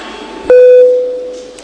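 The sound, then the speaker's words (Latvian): A parliament voting bell gives a single clear electronic chime, a mid-pitched ping that rings out and slowly fades over about a second above faint background noise. “Lūdzu zvanu.”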